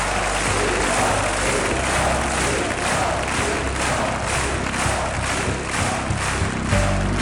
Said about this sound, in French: Vous l'entendez, la dernière représentation en ce printemps 66 se termine par une ovation du public et 17 rappels.